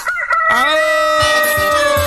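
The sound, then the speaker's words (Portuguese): A rooster crows once in a single loud, drawn-out call that rises at the start and then holds a steady, strained pitch to the end. “Aô, o galo cantando!”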